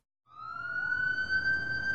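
Police car siren: after a moment of silence a wailing tone swells in, sliding slightly upward before holding a high, sustained pitch with bright overtones.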